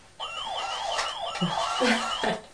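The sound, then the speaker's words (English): A toy ambulance siren wails in a repeated rising-and-falling tone, bright and steady in loudness, with a couple of faint low knocks partway through. “There's the ambulance.”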